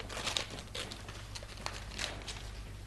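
Paper crinkles and rustles as a letter is opened, a soft, steady crackle broken by a few crisper bursts, with no voices over it.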